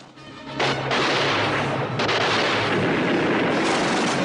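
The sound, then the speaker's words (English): Gunfire from an M16 assault rifle in a combat scene near a hillside hut, a loud, dense roar of rapid shots that swells after a brief softer start and then continues without a pause. “Yin passes Chow grenades, then opens fire with an M16 assault rifle”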